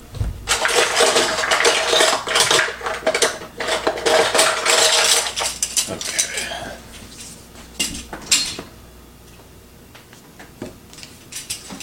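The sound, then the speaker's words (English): Metal measuring spoons clink and jingle as they are handled while baking prep is underway. Busy rattling lasts for several seconds, then fades to a few quieter clicks. “So I'm gonna get some measuring spoons.”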